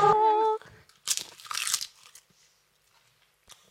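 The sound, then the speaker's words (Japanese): Crunching bites into a crunchy seaweed-flavoured snack: a short voiced sound at the start, then a few brittle crunch bursts, fairly faint, trailing off into quiet. “食べてみますねいい色してますねはいあ磯の匂香りがします”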